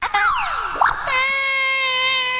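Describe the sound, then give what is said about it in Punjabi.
A person crying in a drawn-out wail: a falling, sobbing cry gives way to a long, steady, high-pitched tone that holds to the end. “ਕੀ ਹੋਇਆ? ਨਹੀਂ ਯਾਰ, ਇਦਾਂ ਨਹੀਂ ਹੋਣਾ ਚਾਹੀਦਾ ਸੀ ਨਾ। ਤੂੰ ਕਿਉਂ ਰੋਈ ਜਾ ਰਿਹਾ?”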